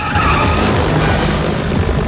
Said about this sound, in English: Then when the chopper tries to lock the car in its sights, the Shagua brakes suddenly.